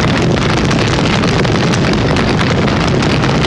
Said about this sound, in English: So cue that fire.